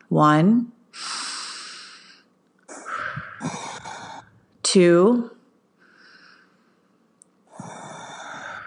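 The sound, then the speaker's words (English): Deep breaths taken during a guided breathing exercise focused on the body and womb area: a series of breathy, noisy inhales and exhales, with a few voiced, sigh-like exhalations between them. “I want you to close your eyes and I want you to take 3 deep breaths into your body and into the womb area with me.”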